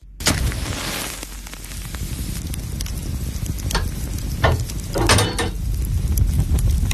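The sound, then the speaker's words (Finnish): Sausage sizzling on a hot sauna stove: a steady, loud crackling hiss broken by a few sharper bursts of spitting, with no voices. “Sieltä se lämpiää. Lempeä löylyinen saunan kiuas. Katsokaas, kun pappa laittaa kiuasmakkaran paistumaan.”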